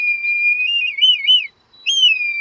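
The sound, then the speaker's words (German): Red kite call: two drawn-out, high, clear whistles, the first long and wavering before dropping off, then a short pause and a second, shorter whistle that starts higher and settles, loud and alone. “Haben Sie es erkannt? So klingt der Ruf eines Rotmilans.”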